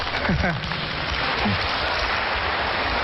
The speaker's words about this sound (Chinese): 谢谢大家给我们这么热烈的掌声。